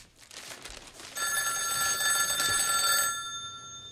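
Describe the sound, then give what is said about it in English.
A telephone bell rings once after its cable is plugged back into the wall, sounding a bright, sustained metallic trill for about two seconds. Soft rustling comes before the ring and it fades away after. “Slightly startled, he stares at the phone for a moment before answering.”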